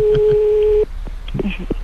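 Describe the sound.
A telephone ringback tone on an outgoing call: one loud, steady mid-pitched tone lasting under a second that cuts off abruptly, followed by faint clicks and brief murmurs on the line.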